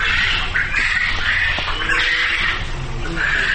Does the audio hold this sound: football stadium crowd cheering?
no